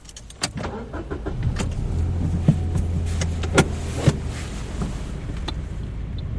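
A learner driver's car pulls away during a driving lesson, with a low, steady engine hum and a few sharp clicks and knocks spread across it. No voices are heard.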